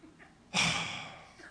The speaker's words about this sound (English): We do the next best American thing. We're very passive aggressive, right? We breathe heavily,